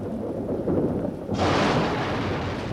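Thunder during a thunderstorm: a low rumble swells about halfway into a broad, loud crashing roar that stays strong to the end.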